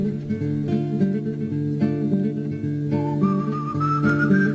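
Melodic whistling from a spaghetti western film soundtrack rides over steady harmonic orchestral backing, with a clear high whistled line entering late and climbing slightly in pitch; no voices.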